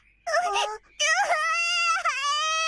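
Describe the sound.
A child cries in high, wavering wails: a short burst first, then a longer sustained cry that breaks briefly and continues, loud and alone.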